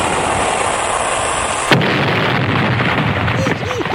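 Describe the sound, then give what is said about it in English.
Explosion from a shot fired at a ship: a sudden sharp blast bursts out of a constant loud rushing roar, and the heavy noise rolls on afterward. “Fire one, Captain.”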